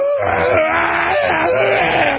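A man's hoarse, sustained roar-like scream at a political event, loud and wavering in pitch, sits over a dense wall of surrounding noise.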